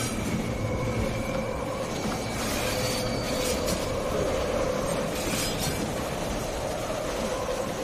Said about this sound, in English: disappears into the dark of the tunnel as the train speeds on